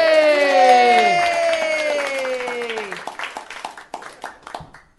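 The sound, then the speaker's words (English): Live audience cheering and applause as a comedian comes onstage: a loud whooping cheer that falls in pitch gives way to scattered, rising clapping. “Please put your hands together and welcome to the stage, Dave Anthony.”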